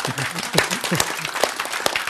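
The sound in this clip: Applause from an audience at a lecture, a dense burst of many claps mixed with a speaking voice, fairly loud and steady throughout.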